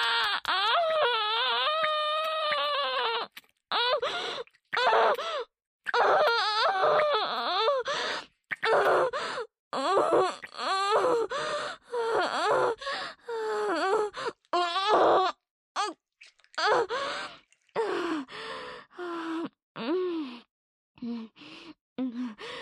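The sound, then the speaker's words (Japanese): A person breaks suddenly into crying, with wailing, whimpering sobs and sharp gasps that come in uneven bursts separated by short silences. “泣くなら泣くって言ってよ。そんないきなり泣かれたらおまんこびっくりしちゃうよ。”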